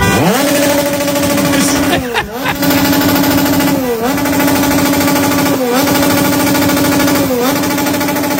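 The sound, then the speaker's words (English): Motorcycle engine revving outside a hotel, a loud, steady, buzzing drone with a rough, rattling edge that dips briefly a few times and then returns to the same level. “That was a motorcycle. They're revving a motorcycle.”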